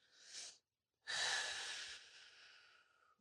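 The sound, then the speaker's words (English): Deep breaths drawn into the low belly: a short airy breath, then a pause, then a longer, steady breath that slowly tapers off. “just kind of take a couple deep breaths into your low belly.”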